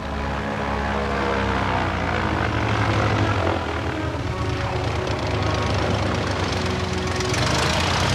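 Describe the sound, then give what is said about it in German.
A propeller plane descends and lands on the roof of a long fish market hall. Its engine drone is loud, steady and unbroken throughout. “Litti landete den Flieger auf dem Dach einer langgezogenen Fischmarkthalle.”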